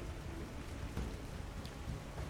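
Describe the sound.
Faint, even hiss of storm rain as background ambience for a tabletop role-playing game, steady throughout with no voices.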